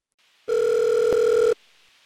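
A telephone line tone marks a listener's call connecting: one steady electronic beep lasting about a second, alone against near silence.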